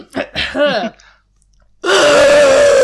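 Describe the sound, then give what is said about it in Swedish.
A voice imitates a zombie scream made while breathing in: after brief talk and a short silence, a loud, raspy, strained scream begins abruptly and holds for about a second. “en zombie då, för jag såg det också på TV för några veckor sedan, att man ska tydligen andas inåt när man skriker.”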